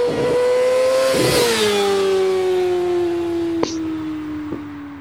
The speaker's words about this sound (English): You know what? We need a good, like, sport bike sound. You know what I mean? Like, something we can play.